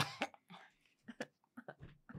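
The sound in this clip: Someone with a tickle in the throat gives a series of short, quiet coughs and throat-clearing rasps, spaced irregularly with brief pauses between them.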